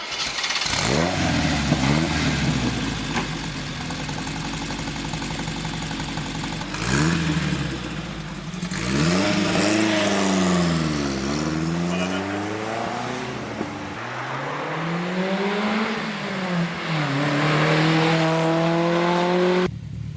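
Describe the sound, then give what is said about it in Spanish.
A Simca 1000 Rally 2 car engine revs hard and repeatedly, its buzzy tone climbing in pitch, dropping back and climbing again as it runs up through the gears, loud and continuous. “vamos a ver cómo suena un Simca 1000 Rally 2.”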